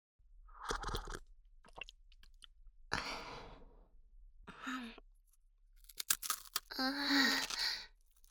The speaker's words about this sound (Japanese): 今度はお茶菓子まで。 おせんべい美味しいよ。